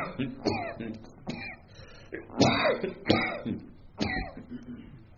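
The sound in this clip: Several harsh coughs from a man in the middle of a religious sermon: broad, rasping bursts spaced roughly a second apart, each followed by a short, trailing throaty rasp.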